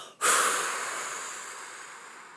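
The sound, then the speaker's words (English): A hard exhale as a person blows out a held breath: one sudden, strong, breathy rush that starts abruptly and then slowly fades over about two seconds, with no talking. “Hold that breath, and as you exhale, you're going to blow really hard under that ball and break it up into a million, zillion, bazillion pieces of light.”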